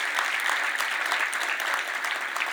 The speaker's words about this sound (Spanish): Creo que podemos darnos un aplauso